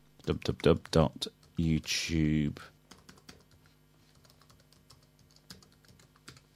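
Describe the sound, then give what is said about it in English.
Typing on a computer keyboard to enter a web address, with a scatter of faint, quick key taps that follow a short stretch of talk. “So I just pressed Control O there, which is a Internet Explorer key, to bring up the open dialog. And I'm just going to type in YouTube,”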